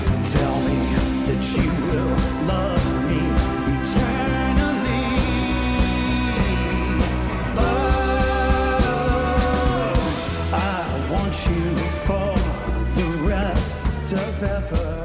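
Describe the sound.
A new pop song from an upcoming solo album, performed live on a late-night talk show: continuous, loud full-band music with a steady rhythmic beat and layered sustained chords, playing alone without talk.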